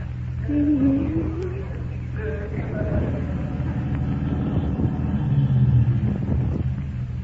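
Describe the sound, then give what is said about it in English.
Car engine rumbling as a vehicle drives up, a staged sound effect. A low, steady rumble continues throughout while voices talk over it. “Somebody drove up while you were kissing me.”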